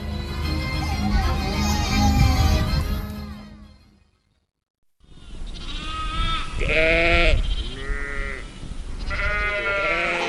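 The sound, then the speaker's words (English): Sheep bleat in a sheepyard at lamb-marking time on a farm in southern New South Wales, with loud, wavering, overlapping bleats that follow a brief silent gap. “It's landmarking time at this farm in southern New South Wales. The process here is the same as it is at most other sheepyards.”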